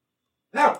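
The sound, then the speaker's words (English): A single sharp bark from a pet dog, short and fairly loud, breaks out alone after silence. “Dog's still barking.”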